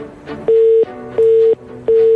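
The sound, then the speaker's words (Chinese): A pulsed telephone line tone sounds as a call to a restaurant duty manager fails to connect: three loud, steady mid-pitched beeps, each about a third of a second long, separated by equal gaps with faint background noise. “这麦当劳徐经理的电话，第一次我觉得可能是线路问题，第二次我觉得可能就不是线路问题啊。”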